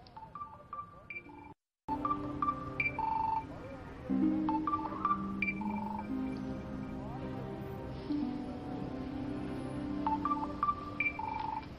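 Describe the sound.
A mobile phone rings with a melodic electronic ringtone, short bright beeping notes repeating in a steady pattern for about twelve seconds, with a brief dropout near the start.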